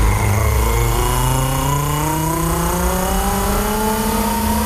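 A car engine revs hard and accelerates away, its loud, continuous drone climbing steadily in pitch across the whole clip with no voices.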